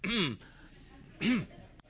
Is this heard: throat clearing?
yes